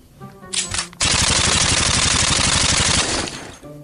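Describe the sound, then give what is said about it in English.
Machine-gun fire sound effect for a trench battle on the left flank: a short burst, then a dense, loud, sustained rattle of rapid shots that fades near the end. “Exterior trench, day. The left flank. We hear artillery and machine gun fire.”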